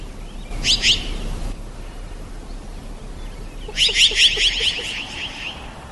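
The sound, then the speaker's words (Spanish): A chara, a jay of tropical dry or pine-oak forest, gives two bursts of rapid, harsh chattering notes from a field recording. The second burst is louder and longer, over a faint steady outdoor hiss. “El primero es un ave y se conoce popularmente como chara. Vamos a escucharla.”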